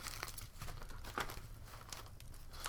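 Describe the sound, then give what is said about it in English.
Faint rustling and crinkling of paper receipts and an envelope being rummaged through, a continuous soft shuffle with a few slightly sharper crinkles. “Receipts, receipts, receipts. Here's an unopened envelope.”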